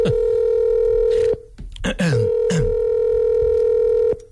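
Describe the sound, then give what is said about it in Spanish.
A steady telephone tone hums almost continuously as a phone call is placed. It breaks off once, briefly, and voices talk over it throughout. “Voy a llamar FIFA ahora mismo.”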